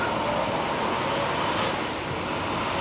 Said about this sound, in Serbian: Piše da je električna, ali čuješ da je motor dizel.